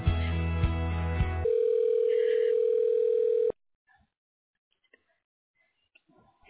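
A telephone ringback tone sounds as a call is being connected: one steady, even tone holds for about two seconds after a short burst of other tones, then the line falls nearly silent apart from faint clicks.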